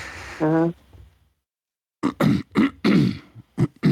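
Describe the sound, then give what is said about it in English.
A person clears their throat with one short, voiced rasp, then after a brief silence starts talking. “Hold on, let me just get my throat. Let me just get my voice, clear my voice out a little bit.”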